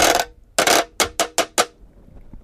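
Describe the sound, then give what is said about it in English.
A washboard struck and scraped with a stick like a snare drum: six dry, rasping hits, the first two longer scrapes, then four quick sharp strokes in an even rhythm, fairly loud and alone. “So it starts out with something that sounds maybe like a snare drum, but it's actually a washboard with me playing the stick on it. I'll give you an example of what that sounds like here.”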